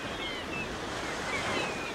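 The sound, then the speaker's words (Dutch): Sea waves wash onto the beach at Noordwijk in a continuous, soft hissing roar of surf with gentle swells, steady and faint throughout. “Het geluid van je jeugd. Ja, de zee. De zee, het strand, de Meeuwen in Noordwijk.”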